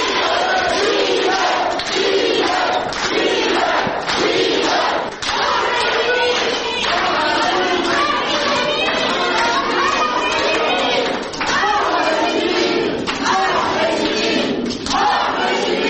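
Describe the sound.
Crowd of supporters and friends giving a standing ovation to defendants arriving at a court hearing: a loud, continuous din of clapping mixed with shouting voices and chatter.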